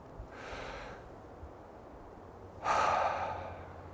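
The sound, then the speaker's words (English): A deep breath: a soft, airy inhale, a short pause, then a louder, fuller exhale that gradually trails off. “I want you to pause and take a deep breath. Ready? Here we go.”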